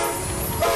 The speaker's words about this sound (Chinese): 这是中欧班列出发的声音